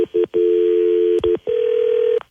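Telephone tones as a call is placed to someone on another line: a few short electronic beeps followed by longer, steady, loud tones, with no talking.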